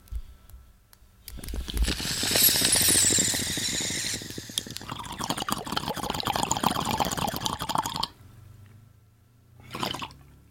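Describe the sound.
Water bubbling in a bong gives a loud gurgling rush that runs for several seconds with a wet, hissing texture, then drops off abruptly, followed after a pause by one short burst of bubbling.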